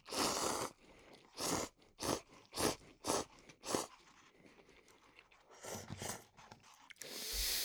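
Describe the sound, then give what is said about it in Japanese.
Someone eating instant cup noodles: a run of loud, crunchy chewing bursts in quick succession, then a pause and a few quieter bites, with no talking. “あー、美味しいな。僕カップ麺ってすごい好きで”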